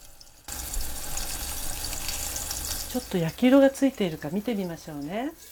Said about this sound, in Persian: در مایتابه رو گذاشته و روی شعله متوسط 2 تا 3 دقیقه تا زمانی که رنگ اون طلایی بشه بپزید.